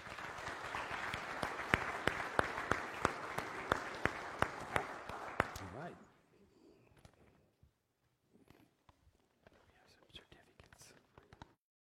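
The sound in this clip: Applause from a church audience welcoming a new member: dense, steady clapping for about six seconds that stops abruptly, followed by near quiet with faint scattered rustles.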